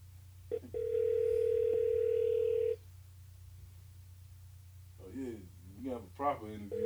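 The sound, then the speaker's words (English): Telephone ringing tone while calling someone: a short beep, then one long, steady electronic tone lasting about two seconds, followed by a pause and a voice speaking. “Let's see if Danny Siegel picks up the phone.”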